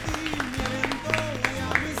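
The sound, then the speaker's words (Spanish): Applause and cheering for a departing host as he leaves the stage, scattered claps that come and go under voices talking. “Un aplauso para ese.”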